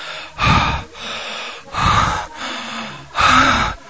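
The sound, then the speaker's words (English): A man's heavy, labored breathing during sex: three loud, gasping breaths with a slight voiced rasp, spaced at a slow, steady rhythm, with softer breathing between them and no words. “I begin to breathe harder and harder with each pass.”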